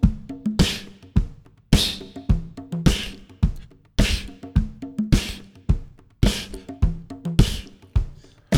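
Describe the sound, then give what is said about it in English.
Beatboxed bass drum and snare drum rhythm, made by a voice imitating a drum kit. Deep thumping kicks alternate with sharp, hissing snare hits in a steady, repeating groove performed alone. “let's put the bass drum with the snare drum and it will sound a little like this.”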